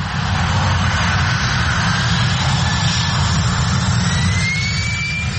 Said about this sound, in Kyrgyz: Учактар чылчык учкан аралыкта айылдын так үстүнөн өтөт.